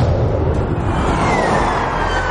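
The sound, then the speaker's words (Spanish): Two police patrol cars race past at full speed with sirens on. A loud, steady road roar dominates, with a faint siren tone riding above it. “Dos patrullas de policía le adelantan a toda velocidad con las sirenas puestas.”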